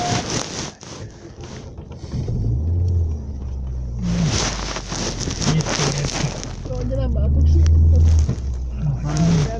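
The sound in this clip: A car passes on a road with a low, rumbling engine and tire noise that swells steadily and grows loudest near the end.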